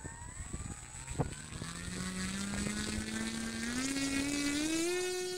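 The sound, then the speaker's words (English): Small remote-controlled airplane with graphene-coated wings taking off. After a few light clicks, its electric motor and propeller build into a continuous buzzing whine that climbs steadily in pitch and grows slightly louder. “that is the sound of the world's first airplane made with graphene-coated wings taking off”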